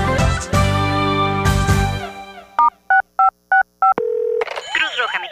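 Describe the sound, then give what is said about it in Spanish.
Telephone keypad tones dialing a star code for a donation line: five short, evenly spaced beeps after a stretch of music, then a brief steady tone and more music. “Ahora, cada vez que levantas tu teléfono, puedes ayudar a la Cruz Roja. Solo marca al asterisco 6565”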